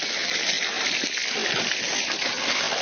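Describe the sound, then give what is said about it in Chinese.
Water rinses a softshell turtle clean: a steady, dense spray and splash of running water that continues unbroken at an even, fairly loud level throughout. “这个甲鱼抓回来了，就要首先第一步把它冲洗干净。 好， 背上也要清干净。”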